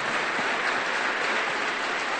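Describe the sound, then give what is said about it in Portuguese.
Applause from a church audience honouring the kitchen helpers who prepared lunch: a dense, even wash of clapping that holds steady for about two seconds, with no voices over it. “Vamos aplaudir a eles, porque foi uma bênção.”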